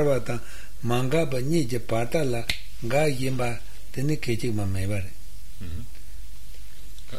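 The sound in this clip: A single sharp finger snap, a brief dry click, lands in a short pause between stretches of talk in German.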